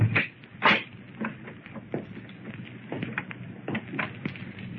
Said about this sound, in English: Go on, try it. Maybe it's unlocked. All right. Hey, it is unlocked. Well, go on, open it. Go on in.